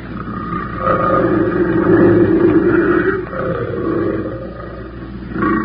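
A big cat, a female prowling just up a trail near her kill, gives deep, rumbling roars and grunts that swell and fade in a few long, throaty waves.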